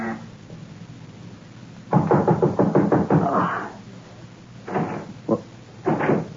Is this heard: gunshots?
no